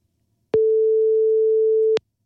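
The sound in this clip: Telephone ringing tone while a call is being placed: one steady mid-pitched beep lasting about a second and a half, with a soft click at its start and end and no talk.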